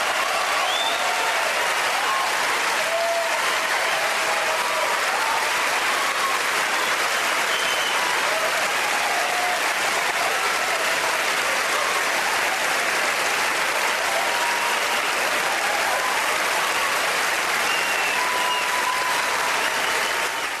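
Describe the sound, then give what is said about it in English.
Sustained applause from the Academy Awards audience as Roman Polanski wins for The Pianist: a dense, steady roar of many hands clapping that holds at an even, loud level throughout. “And then when he won an Oscar in 2011, you know, you have a minute's worth of applause for this creep. And the Oscar goes to Roman Polanski for The Pianist.”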